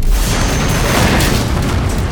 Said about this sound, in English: The choked blast rifle exploded like a bomb.